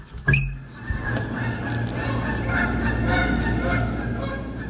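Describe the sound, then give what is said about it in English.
Geese honking outside a window in the morning: a loud honk at the start, then many overlapping calls over a dense, continuous bed of flock noise. “After waking up to choruses of birdsong and geese honking outside my window nearly every morning,”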